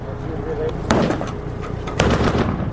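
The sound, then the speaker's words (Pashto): Gunfire is exchanged between Afghan soldiers and Taliban fighters on the outskirts of Tarinkot at dusk. Two loud, sharp shots stand out among several fainter cracks, with talk underneath. “د ماښام تیاره لا نه وي خپره سوې، خو د ترینکوټ ښار په څنډو کې افغان سرتیری او طالبان پرې یو بل ډزې پیل کړې.”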